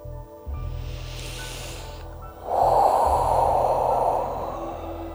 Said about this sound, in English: Breathe it in.